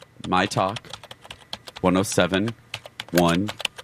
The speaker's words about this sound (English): You go to your computer and type